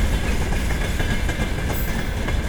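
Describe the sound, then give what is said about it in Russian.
Unloaded railway flatcars rush past in a loud, continuous rumble. Their wheels rattle and clatter steadily throughout. “Замечательно звучат платформы, звучат замечательно просто несущиеся без груза.”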